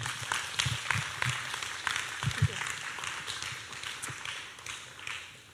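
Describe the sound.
A worship audience applauds to welcome a speaker, a steady wash of clapping with sharper individual claps scattered through it, fading toward the end.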